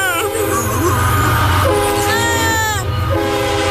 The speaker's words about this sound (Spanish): ¡Ahí viene el tren!